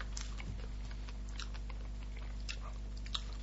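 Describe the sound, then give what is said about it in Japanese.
Crisp bites and chewing on a warmed Lunch Pack sandwich filled with jam and whipped cream, a few faint crunchy snaps over quiet background hum. “あれ、久しぶりになんか、ランチパックを食べた感がしたな。うん。もう放送にも載ってんじゃないかな、このサクっていう感じがね。”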